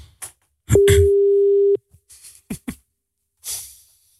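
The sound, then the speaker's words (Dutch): A telephone rings out on an outgoing call: a single steady pure tone lasting about a second, framed by brief clicks and soft handling noises. “We bellen jouw vrouw, Tessel.”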